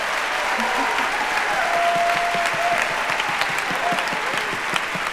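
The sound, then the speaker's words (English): Audience applause at a live Radiolab stage show: steady, dense clapping that holds at an even, loud level for the whole clip. “So give it up for Radiolab producer Molly Webster.”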